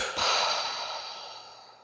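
A slow exhale during a breathing exercise: one long, breathy rush of air that swells quickly and then fades away gradually. It is heard alone, with no talk.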